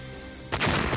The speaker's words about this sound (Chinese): 不知何时被人藏着的炸弹发出巨大的声响，那火焰只是眨眼间就将整栋建筑给吞没